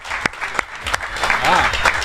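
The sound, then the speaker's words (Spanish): Audience applause at a vintage-themed trivia game event. It starts as a few sharp, separate claps and builds into a fuller, steadier round of clapping, with a voice briefly heard through it. “Un fuertísimo aplauso también para el amigo Samuel, que ha sido el que han montado todo este tinglao.”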